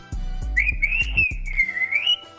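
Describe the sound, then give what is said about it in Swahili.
A person whistling a high, wavering tune that glides up and down for under two seconds. Low rhythmic thumps play under the start and stop partway through. “hebu tupate mluzi kwanza”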